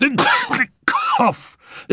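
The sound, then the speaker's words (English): A voice imitates a racking fit of coughing by a thin, ill woman: a few harsh, voiced bursts separated by short gaps. “then fell back, attacked by a fit of coughing that racked her thin body.”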